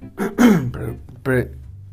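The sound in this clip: A person clears their throat with a few raspy, voiced rasps in short bursts separated by brief pauses, fairly loud and alone.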